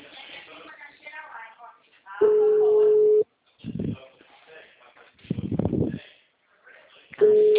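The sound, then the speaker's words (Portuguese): A telephone busy signal sounds as a steady, mid-pitched tone in two bursts of about a second each, with voices talking in the gaps between them. “Será que esse telefone aqui tá ruim? O número está ocupado.”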